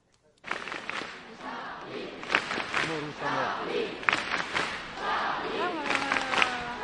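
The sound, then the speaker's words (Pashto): Dense crowd packed into Place de la République, Paris, at a gathering after the city's terror attacks: many overlapping voices and raised shouts form a steady, loud murmur that begins abruptly after a brief silence and continues throughout. “د پاریس د ډیل ریپبلیک سیمه د خلکو ډکه وه او د خلکو ګڼه ګوڼه دونه زیاته وه چې تقریبا د یو څو انچو مزل هم په نیم ساعت ویل کېدی.”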